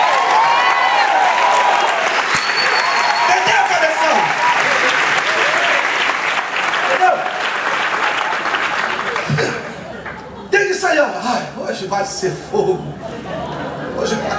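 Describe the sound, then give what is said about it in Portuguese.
A church audience applauds during a service with dense, sustained clapping and voices mixed in. Near the end it thins into more scattered claps. “Aplaude ele”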